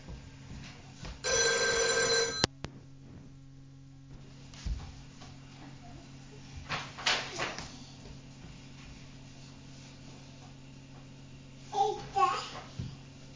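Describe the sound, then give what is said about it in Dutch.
A telephone rings once as a short, bright, buzzing burst, followed by quiet room noise with faint child babbling and soft voices. “Wat een gebeld.”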